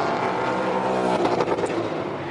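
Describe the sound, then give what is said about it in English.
A race car's engine roars loudly and continuously as it passes the start-finish line on the rev limiter, turning choppy and stuttering in its second half. “somebody on the rev limiter there as they were going past the start-finish line”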